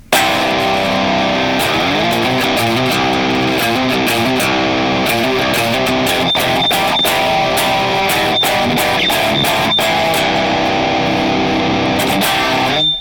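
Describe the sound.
Distorted electric guitar played through a percolator and Dark Messenger full range boost impulse response in a Boss IR200, a heavy, loud riff of chugging chords and sharp staccato hits that runs without a break.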